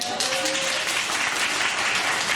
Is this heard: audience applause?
yes